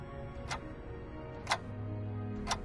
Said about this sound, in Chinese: 蓝色的时钟滴答滴答地走着，每一下都走得精准无比